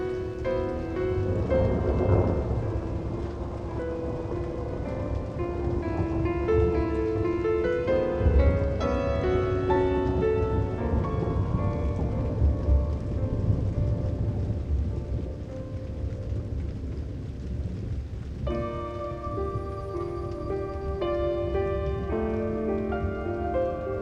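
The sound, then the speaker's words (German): Steady rain falls as a continuous broad hiss through a thunderstorm, with low rumbling under the patter and no talk. “Jetzt ist nur noch der Regen da. Das ist schön.”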